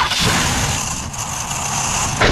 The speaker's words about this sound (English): Well, that sounds expensive. Nope, that's the sound of your car begging for retirement.